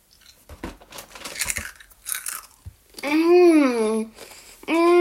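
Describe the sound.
Crisp crunching as chocolate cornflakes are bitten and chewed: a run of irregular crackly bites for about three seconds, then loud drawn-out voiced sounds.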